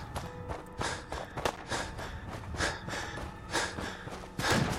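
Running footsteps in the video game Fallout 4 at Green Top Nursery: many quick, sharp steps in an uneven rhythm, moderately loud and alone.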